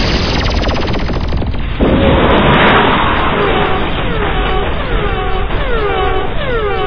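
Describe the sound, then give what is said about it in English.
Spaceship weapon fire strikes a main shield generator in space combat: a quick rattle of rapid pulses, then a loud, sustained crashing blast, followed by several falling electronic whines. “Ma'am, they've hit our main shield generator.”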